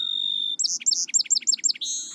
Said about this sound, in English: Many bird species have a distinctive song.